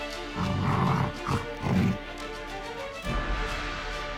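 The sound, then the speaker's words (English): A wolf growls and snarls as it makes a bite attack in a turn-based video game battle. A few rough bursts come in quick succession, then a lower rumbling hit fades out over a soft steady hum. “Wolf uses bite on Taras.”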